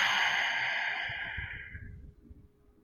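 A long, deep exhale during a guided breathing exercise, a breathy rush that fades steadily away over about two seconds, heard alone without talk.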